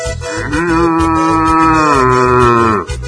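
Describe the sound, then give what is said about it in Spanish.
A bull mooing at Estancia La Aurora, one long, loud moo held at a steady pitch for over two seconds before it drops away. “Ahí está Toro. En Estancia La Aurora está Toro.”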